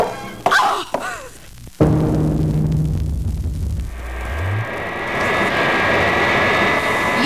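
An airplane engine drones in flight, a loud, continuous roar with a whining tone that sets in after a couple of sharp knocks and thuds at the start.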